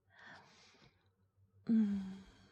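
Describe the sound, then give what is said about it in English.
Slow, close breathing for an ASMR setting: a soft drawn breath, a pause, then a louder, sigh-like exhale with a faint voiced edge, heard alone without talk. “Breathing, like I'm laying right there beside you. Like that.”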